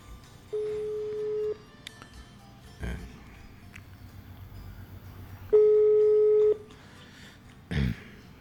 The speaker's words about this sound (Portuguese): Vou ligar pra um cara aqui.